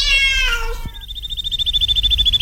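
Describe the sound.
A cat gives one loud, drawn-out meow, followed by a rapid, steady run of high, thin chirps like a small songbird that grows gradually louder.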